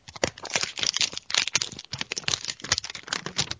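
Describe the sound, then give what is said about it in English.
Thick cellophane wrapper ripped open on a deck of cards: a dense run of crackly, crinkling bursts of plastic that never settles, sharp and bright throughout. “I'm excited to hear this noise of this ripping. So get it right up on the microphone, buddy. Yeah, but this one is like a thicker cellophane, and it's, I don't know, it's not the same. It's not a cigarette pack one.”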